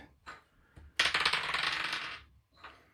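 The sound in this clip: Dice rattle and tumble during a board game: a couple of short clicks, then about a second of dense, rapid hard clatter, and a final brief rattle, all fairly quiet.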